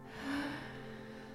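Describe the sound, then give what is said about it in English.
A group draws a big, deep breath together during a guided relaxation exercise, an airy inhale that swells early and then holds steady over a soft, sustained hum. “And now I'm going to invite everyone to close your eyes and let's all take a big, deep breath together.”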